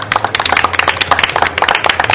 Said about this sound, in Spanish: Un aplauso para ustedes mismos.